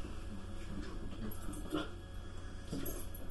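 Dogs whimpering in faint, brief whines, a few soft high cries rising over a low, steady hiss with quiet breathing-like noise.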